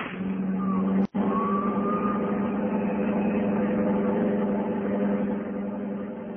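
A car engine drones as the car speeds off in a getaway, a loud, steady, continuous hum broken by one very brief dropout near the start.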